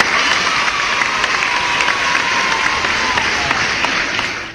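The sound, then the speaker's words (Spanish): Loud, sustained applause from a crowd, a dense continuous patter of clapping that stays even throughout and tapers slightly at the very end, with no voices on top. “¿Dónde están mis aplausos y mis niños?”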